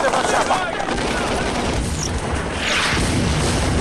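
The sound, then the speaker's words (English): A film gunfight on a hillside, with two pistols firing and bullets tearing into the ground, comes through as a loud, dense, unbroken barrage of shots and impacts that blur together with no single report standing out. “The assassin fires two pistols. Fire on the hills. As Burnett scurries up the incline, bullets tear through the ground around him.”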